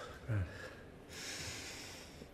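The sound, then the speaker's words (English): Big deep breaths: a sharp snorting inhale followed by a long, airy, hissing exhale, soft and breathy. “Back to normal. Thank God. 3 big deep breaths. That's all you need.”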